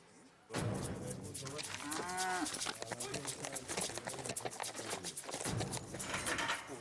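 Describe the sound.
Cattle lowing at a rodeo in Chile, with one clear, drawn-out moo standing out from a continuous noisy background.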